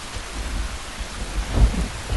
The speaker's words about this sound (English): They stumble away from the bus as pouring rain turns the dirt to mud.